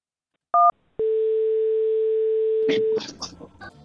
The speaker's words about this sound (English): We dialed a fax thing up or something.